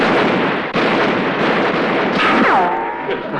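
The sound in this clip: A rapid, loud burst of gunshots in a firefight, dense and overlapping with no clear gaps. A sharp falling whine like a ricochet cuts through near the end, with no voices.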